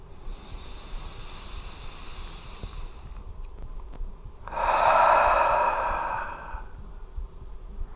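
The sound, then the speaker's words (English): A slow, deep breath taken during a guided heart-focused breathing meditation: one long, airy rush rises out of a steady low hiss, holds for about two seconds, then fades, with no talk. “So bring a breath in through the heart and out through the heart.”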